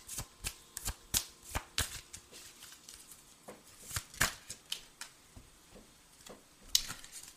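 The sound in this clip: Playing cards being shuffled in a rapid series of crisp, snapping flicks. The flicks come in uneven bursts, with short pauses between the runs.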